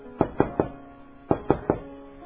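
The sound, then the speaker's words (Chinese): Gentle knocking on a door: two sets of three even, light raps separated by a short pause, with no voices. “有一天，有一个人轻轻敲门，”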